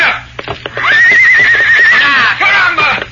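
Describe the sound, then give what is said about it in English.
A spirited horse neighs as a rider vaults into its saddle, a long shrill quavering whinny followed by a shorter second whinny, loud over a low steady hum. “The outlaw leader waited until Dave grasped Victor's bridle. Then he vaulted into the saddle. So, now I shall see how he runs.”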